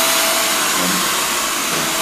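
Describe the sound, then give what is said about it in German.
A hair dryer blows hair dry after a haircut, a loud, steady, unbroken whoosh of air with a motor hum that keeps a constant level throughout, with no talk. “An der Länge dieses, also dieses Föhnens könnt ihr ja übrigens ermessen, wie viel Haare ich noch habe.”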